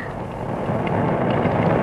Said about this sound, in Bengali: এই রে দেখছেন বৃষ্টিতে জোরে এসে গেল।